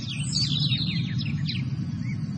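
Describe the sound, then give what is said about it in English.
Birds chirping in a quick run of high, sweeping tweets over a steady low background rumble. “underneath, maybe some birds.”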